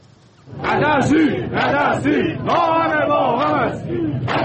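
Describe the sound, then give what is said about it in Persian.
An anti-government protest crowd in Iran chants slogans. Loud group voices shout in short, rhythmic phrases separated by brief gaps, and the chant rises in a strong, ragged chorus. “این صدای اعتراضات ضد حکومتی در ایران است، در حالی که گزارش‌ها حکایت از ادامه ناآرامی و اعتراض‌ها در نقاط مختلف ایران دارد.”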